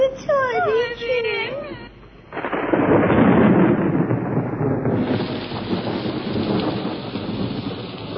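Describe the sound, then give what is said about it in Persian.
Thunder in a storm. A wavering, wailing voice opens, then a loud, rolling crash of thunder breaks in with heavy, steady rain that continues to the end. “در پاریس خانم ادلا که خواب بود از صدای رعد برق از خواب پرید”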